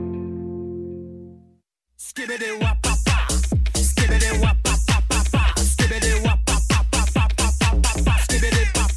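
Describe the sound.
A song by a Russian band: a sustained harmonic tone fades to a brief silence, then a loud electronic track starts with a pounding, evenly spaced beat of many heavy hits that stays steady to the end.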